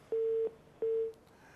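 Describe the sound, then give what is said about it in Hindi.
Phone line tones after a dropped call: two identical steady mid-pitched beeps, each about a third of a second long, separated by a short gap, like a busy signal. “Call हमसे drop हो गई।”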